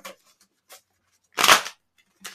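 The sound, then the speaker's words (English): A single crisp riffle of tarot cards being shuffled for a reading: a brief, bright burst with a few faint soft rustles around it. “I'm going to do the cards for you.”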